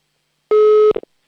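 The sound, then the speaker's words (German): A single steady ringback tone sounds on a telephone line as a number is dialled, followed by a few short clicks. “Oh, Freizeichen haben wir zumindest schon mal.”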